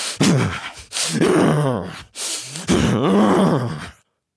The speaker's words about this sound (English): When we're in a state of stress, our breath responds accordingly. For most people, it sounds like this.